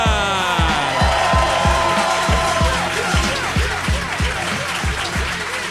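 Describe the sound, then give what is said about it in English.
Applause and cheering greet a comedian coming on stage at a live show, mixed with a thumping, regular beat of walk-on music. “Ladies and gentlemen, please put your hands together. Welcome to the stage, Mr. Ramesh Ranganathan.”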